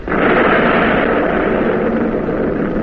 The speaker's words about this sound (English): Commence firing. Salvo. Salvo. Commence.